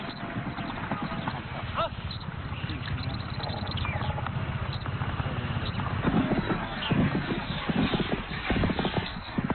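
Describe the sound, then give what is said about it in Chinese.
A horse gallops with a rider near a yurt among Mongolian herders, a fast, steady patter of hoofbeats over a low rumble, growing a little louder toward the end. “蒙古包前一骑飞驰，发生什么事了？”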